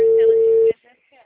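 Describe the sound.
A telephone call ringing: one steady, mid-pitched ring tone sounds for about three quarters of a second, then cuts off abruptly, leaving only faint scattered sounds.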